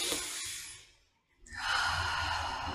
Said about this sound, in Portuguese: então é assim, você inspira e você solta, você abre seu corpo.